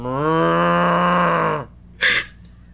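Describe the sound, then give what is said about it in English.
A long, low moo from a large cow covered in boils charging through a cornfield, rich and steady for about a second and a half, then stopping, followed by a short, breathy snort. “three large cows covered in boils and seeping pus from every orifice”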